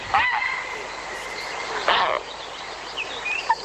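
Barn owl call, a harsh, hissing screech with a couple of rasping noisy bursts at moderate loudness, over faint background bird twittering.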